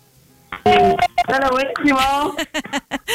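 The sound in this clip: Telephone call being dialed during a prize giveaway: a quick run of loud electronic dialing tones and beeps that end in a few short, separate pulses.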